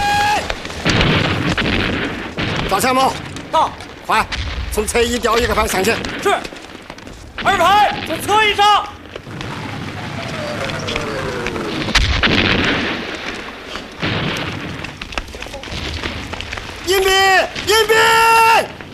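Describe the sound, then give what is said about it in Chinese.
Artillery bombardment in a war drama battle scene: repeated heavy booms and blasts with rumbling between them, while voices shout and call out over the barrage. “命令炮兵加强轰击。”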